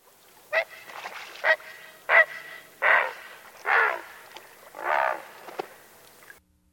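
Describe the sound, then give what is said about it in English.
A great blue heron gives a series of harsh, hoarse croaking calls. The squawks come in short and longer bursts, loud and separated by brief pauses. “Great blue herons sound like this.”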